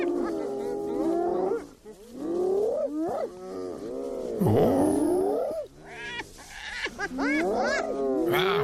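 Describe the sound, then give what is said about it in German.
A spotted hyena calls in an original recording, giving a long series of loud, looping whoops and cackles that swoop up and down in pitch, with short pauses between the bursts. “klingt fast so ein bisschen wie ein Lachsack oder sowas, aber ist tatsächlich die Originalaufnahme einer Tüpfelhyäne.”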